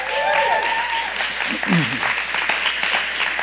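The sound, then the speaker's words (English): Audience applause welcomes panel guests coming up on stage, with steady, even clapping running throughout while a voice talks over it. “Come on, give them one more big hand.”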